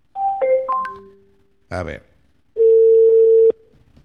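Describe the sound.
Telephone tones sound as a call is placed, beginning with a few short electronic beeps at differing pitches. A brief noisy burst follows, then a loud, steady, unbroken tone holding for about a second before cutting off.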